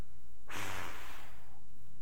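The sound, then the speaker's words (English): A preacher blows one forceful breath, imitating God breathing life into Adam. It is a single airy rush of about a second, loud and alone against quiet. “He's reenacting the scene in Genesis where God breathes into the nostrils of Adam life. And he says, guys, I'll breathe life into you guys.”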